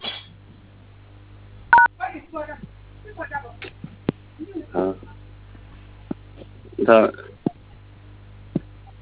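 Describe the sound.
Telephone keypad dialing tones from someone entering a star code to reach a phone menu: several short beeps at uneven intervals, separated by pauses and mixed with people talking over a narrow phone-line sound.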